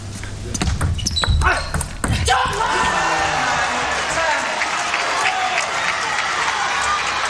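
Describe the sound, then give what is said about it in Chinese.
A table tennis ball bounces on a serve in a professional match: a few sharp ticks and knocks in the first two seconds, followed by sustained crowd applause and cheering that lasts to the end. “九平，现在梁靖昆发球。”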